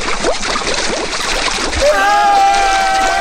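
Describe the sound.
Water splashes and sloshes as people plunge into a piranha tank at a reception desk, a choppy, noisy wash of turbulent water that swells louder partway through.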